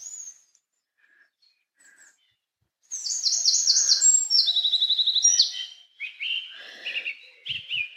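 Songbirds sing in a forest. After a near-silent opening with a couple of faint calls, bright rapid trills and repeated chirps burst out, then settle into shorter scattered phrases.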